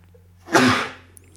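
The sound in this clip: One loud, explosive sneeze, a sudden breathy burst that tails off over about half a second, heard alone.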